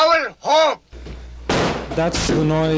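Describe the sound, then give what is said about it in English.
A sheriff swings a sledgehammer against a locked door of the International Hotel, making heavy, abrupt thudding blows amid talking voices. “That's the sound of Richard Hongisto swinging a sledgehammer, breaking in a door here at the tenants of the International Hotel. The sheriff wields the sledgehammer once again on the locked door.”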